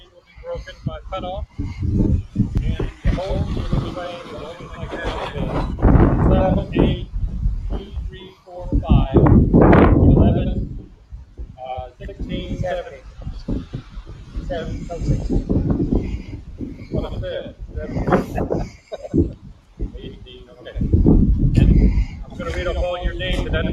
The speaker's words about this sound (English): And I'm sure you can hear it if you're listening to this broadcast. We are up to about a 20-mile-an-hour sustained wind.